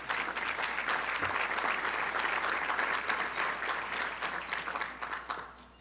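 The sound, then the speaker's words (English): Audience applause at a speech about youth clubs: dense, sustained clapping from many people, holding steady and loud before thinning and fading toward the end. “And you should clap.”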